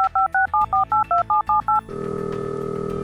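Nine telephone keypad tones beep in a quick, even sequence as a number is dialed, followed by a steady, continuous line tone.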